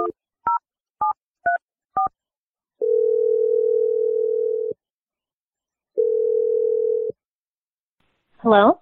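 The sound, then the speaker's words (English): Telephone dialing: five short touch-tone beeps come in quick succession, then two long steady ringing tones separated by a pause. A brief voice answers at the end. “I'm going to dial Alana's number right now.”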